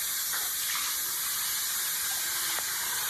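Water runs into a bathroom sink in a steady, continuous hissing flow, fairly faint and unbroken for the whole stretch.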